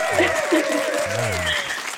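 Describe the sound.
A group of people claps and cheers, with voices whooping over steady applause for about two seconds.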